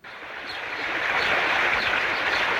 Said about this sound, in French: Vous aimez le bruit de l'eau? Oui. C'est calme ici, vous ne trouvez pas?